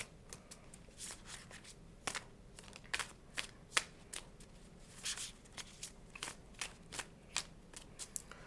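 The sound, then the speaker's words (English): Tarot cards are shuffled and flipped in quiet, crisp bursts. Many sharp papery snaps and riffles come in an uneven rhythm over a soft background. “Well, let's flip a card about it.”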